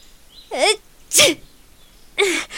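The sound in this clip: Three loud, sharp sneezes come from a young woman with a pollen allergy standing beside a flowering tree in a forest. Each sneeze has a voiced, gasping onset, and the last comes after a longer pause.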